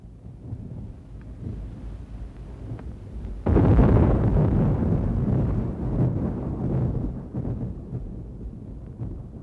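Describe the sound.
Thunder from a thunderstorm: a low rumble swells into a sudden loud crack, then a long, heavy rolling roar that slowly fades.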